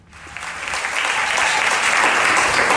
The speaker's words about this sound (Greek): Με αποθεώνει το κοινό, όπως ακούτε. Αλλά δικό μου, ο Αρκάς. Τα χειροκροτήματα στον Αρκά, τον σύντροφο, τον φίλο από την Αρκαδία.